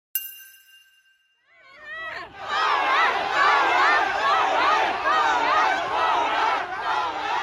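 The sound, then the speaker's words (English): Protesters against China's zero-COVID rules in Shanghai. A short ringing tone fades, then a crowd's shouting swells up and stays loud and dense, voices chanting together to the end. “That's the sound of protesters in Shanghai on Sunday.”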